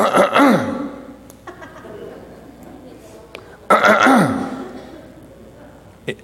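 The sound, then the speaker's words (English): A man's voice imitates a father clearing his throat, doing it twice with a pause between: each is a loud, rough, gravelly rasp that drops in pitch. “That was the sound of my father clearing his throat.”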